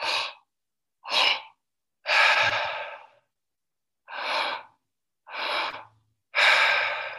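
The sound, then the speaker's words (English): Breathing exercise through the mouth: two quick inhales, belly then chest, followed by one longer, fuller exhale, with the pattern played twice. Soft, airy breaths separated by short silences, with no talk. “Imagine that you're doing two inhales and one exhale, and one inhale into the belly, followed immediately by one inhale into the chest, and then one exhale.”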